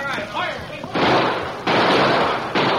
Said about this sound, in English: All right, men, shoot over their heads to turn them away.